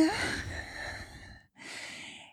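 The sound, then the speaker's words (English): Slow, deliberate meditative breathing: a long, airy breath of about a second and a half, a brief pause, then a second soft, unvoiced breath of similar length. “Just listen to your heart and follow the breath, okay? Just... in”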